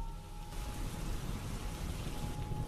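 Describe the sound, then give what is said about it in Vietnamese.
Heavy rain suddenly pouring from a night sky: a dense, steady, loud hiss of downpour with no breaks and no voices. “thì trên bầu trời y ầm đổ mưa.”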